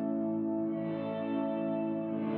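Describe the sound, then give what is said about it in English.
A guitar sustains a chord through an effects pedal with every control off except reverb turned to maximum. The notes blur into a steady, shimmering wash with the attack smoothed away, holding evenly for the whole clip. “One setting that I think is cool on this is everything off except reverb, and I've got reverb dimed.”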